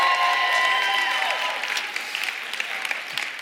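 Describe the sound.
Audience applause for a birthday announced at the start of a church service: dense, steady clapping from a crowd that stays full for about two seconds, then thins and softens toward the end.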